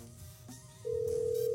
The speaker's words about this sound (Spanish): Si no contesta, vamos a escoger a alguien más. Ya está sonando.